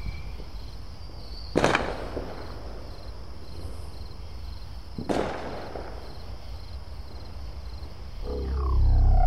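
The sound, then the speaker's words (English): Two sharp firework bangs, several seconds apart, each with a brief crackling tail that fades into a steady background hiss. “It's all right. It's just fireworks. I thought the 4th was last week. Ah, just kids being kids.”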